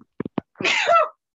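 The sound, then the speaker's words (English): A single sharp sneeze brought on by excitement, preceded by a few short, quick breaths, then one loud burst that trails off, with no talking. “I made him sneeze with excitement.”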